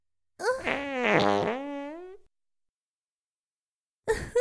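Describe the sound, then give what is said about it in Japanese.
A drawn-out, tonal fart about two seconds long, its pitch wavering up and down before it trails off into silence. “なんてお下品な音。音だけで、とても臭いおならだということがわかります。”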